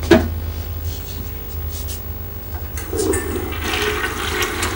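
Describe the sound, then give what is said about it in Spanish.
A toilet flushes after a cigarette butt is tossed into the bowl in a bathroom: a brief clack, then steady rushing water that swells louder and fuller partway through and keeps pouring to the end. “Da una última calada y tira la colilla al váter.”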